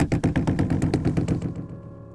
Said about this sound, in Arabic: وفي اللحظة دي بدأ خبط.